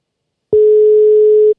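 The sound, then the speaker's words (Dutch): A telephone ringing tone sounds as a call is placed: one steady, clear mid-pitched tone lasting about a second, with nothing else around it. “Dus ik ga hem eens even bellen, eens kijken of we hem te pakken krijgen.”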